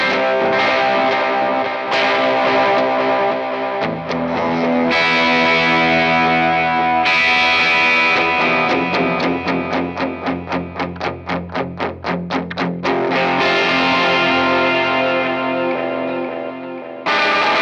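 A Gibson Government Series Flying V electric guitar plays heavily distorted chords through effects, several sustained chords ringing out with a quick pulsing, rapidly repeated passage in the middle before full chords return, with no talking.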